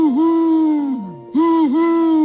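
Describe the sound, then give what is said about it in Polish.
A voice imitates a cartoon owl hooting in two long, loud, tonal hoots. Each hoot has small dips in pitch, and the first ends in a downward slide before a brief silence. “Sowa Zosia nadęła się i wydała z siebie.”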